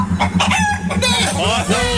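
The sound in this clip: A chicken clucks in short, sharp bursts, several times in quick succession, over a steady low droning tone.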